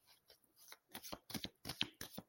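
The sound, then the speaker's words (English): A deck of tarot cards being shuffled gives a quick run of many short, papery riffling bursts in an uneven rhythm, quiet and alone without any talk. “and shuffle the cards”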